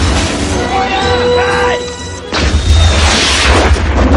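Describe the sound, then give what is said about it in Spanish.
A car is blown up in a tremendous explosion and engulfed in flames during a 1988 action film. A loud, deep blast with a long rumbling roar bursts in after a stretch of busier sound where voices are present. “Tras una tremenda explosión queda envuelta en llamas.”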